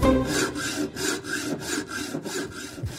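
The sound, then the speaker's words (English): Rhythmic rasp of a saw cutting wood, used as a sound effect, with brisk, even back-and-forth strokes repeating steadily, fairly loud and heard alone. “I like the saw sound effect there at the end.”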